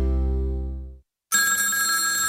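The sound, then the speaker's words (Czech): A telephone ringing with no one answering: a loud low-pitched ring tone fades out, then after a brief silence a brighter, buzzing electronic ring starts and holds steady. “Škola volá, ale my to nezvedáme.”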